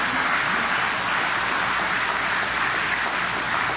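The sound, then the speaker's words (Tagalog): A church audience applauds during a service, producing steady, dense clapping that stays at an even level from start to finish. “Amen? Amen po ba? Palakpakan po natin ng Panginoon, mga kapatid.”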